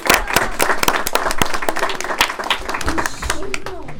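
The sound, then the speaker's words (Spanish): Audience applause follows a song during a primary school class visit to a radio studio: many dense, overlapping claps, steady and fairly loud for about four seconds, with voices mixed in. “Un aplauso por favor.”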